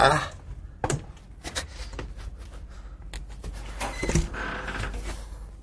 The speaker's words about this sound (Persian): درش قفل میکنی حرف نباشه قفل میکنی حرف نباشه